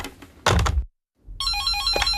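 An electronic telephone ringtone follows a dull thunk and a short silence. The ringing is a steady, bright tone with several stacked pitches and a pulsing, warbling texture that continues to the end.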